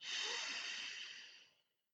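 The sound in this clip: A single long, soft, airy breath during a guided deep-breathing exercise, steady at first and then fading away over about a second and a half.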